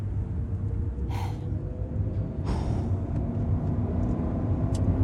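A car being driven fast gives a continuous low roar of engine and road rumble, steady throughout, with a few brief breathy bursts of higher noise riding on top.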